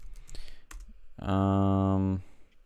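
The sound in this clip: Computer keyboard typing, a few quick light key clicks in the first second, followed by a loud, steady, even-pitched tone.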